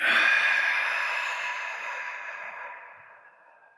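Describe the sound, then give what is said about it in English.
A long, deep breath out during a guided breathing exercise: a soft, airy rush of air that starts strong and fades steadily over several seconds, with no talk over it. “Breathe in that gift, all of that oxygen. Good. Exhale.”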